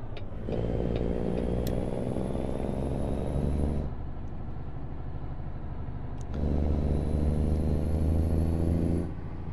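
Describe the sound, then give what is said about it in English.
A car drives as it pulls into a store parking lot. The engine and road noise make a steady low rumble with a faint high whine above it, and the level lifts slightly partway through. “Pulling into the Walbert right now. Looks like it's to the back.”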